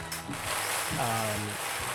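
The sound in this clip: Lottery balls rattle and tumble inside a spinning cage during a draft-order draw. The clattering knocks are moderately loud and come in an uneven rhythm over a low voice.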